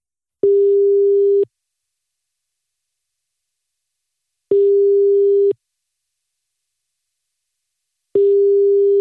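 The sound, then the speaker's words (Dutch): Telephone ringback tone while a call is placed, three long steady mid-pitched beeps of about a second each, spaced evenly with silence between them and no voices. “En nu gaan we gewoon net zo lang bellen tot hij opneemt”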